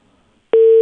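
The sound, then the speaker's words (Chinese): A telephone line tone plays while a call to a cable TV service line is being transferred. One short, loud, steady beep of low-mid pitch breaks in after near silence. “欢迎致电中国广电龙江网络，电话正在转接中，请不要挂机”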